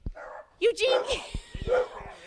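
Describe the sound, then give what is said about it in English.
A dog barks and yips from a second-floor balcony deck above, a few short, high, whiny barks rising out of people talking nearby. “What are you doing up there? Look, he's up on the deck up there. My dog has moved apartments on us. He's now on the second balcony.”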